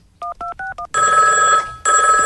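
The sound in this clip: Telephone ringing for a prank call to a tavern: four short tone bursts, then two long, bright, steady ringing bursts separated by a brief gap.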